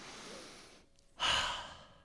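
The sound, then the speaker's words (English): A single deep breath drawn in, heard as a sudden loud, airy rush that quickly fades, after a soft stretch of quiet breathy noise. “Take a deep breath.”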